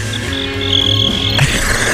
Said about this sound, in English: That's if I tell a bad joke, you do that. Right? I just randomly... You get crickets.